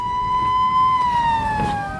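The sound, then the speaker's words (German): A siren opening a Frankfurt radio crime series first aired in 1959 sounds a loud, steady wailing tone rich in overtones. Its pitch dips slightly toward the end over a low background rumble. “Im Mai 1959 erklang im Hessischen Rundfunk erstmals diese legendäre Sirene.”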